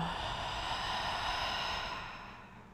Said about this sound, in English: So let's take a deep breath in through the nose. Exhale out the mouth, let it go.